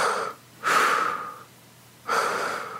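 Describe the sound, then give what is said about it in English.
A voice imitates heavy, labored breathing, as of someone stuck in bed and unable to move. Two long, loud, hissing breaths are heard, each trailing off slowly, with the tail of a similar breath at the start. “your breathing starts to go”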